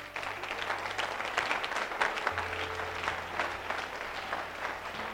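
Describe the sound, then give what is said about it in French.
A church audience applauding: dense, even clapping from many hands that holds at a steady level throughout. “Acclame Dieu pour ta vie.”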